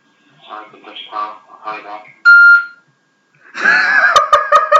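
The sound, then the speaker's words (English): A phone call to a friend goes unanswered. A man's voice speaks, a single short electronic beep tone cuts in, and talking with clicks resumes after a pause. “Mark told me not to call him, so I'm going to call him. I'm not going to call him, but I'm just going to see how he's doing today.”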